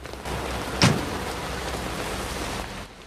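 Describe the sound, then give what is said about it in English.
Heavy rain pours down over a town street in a dense, steady hiss throughout, with a single brief thump near the start. “rain buckets down from a grey sky”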